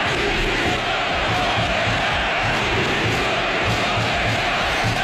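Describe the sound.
Valencia fans chant at Mestalla during the Trofeo Naranja, a preseason football match. A dense, steady roar of massed voices holds at full volume throughout, with no pauses.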